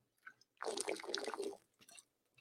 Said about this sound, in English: Man, I'm losing my voice here. Let me get water. 2 seconds.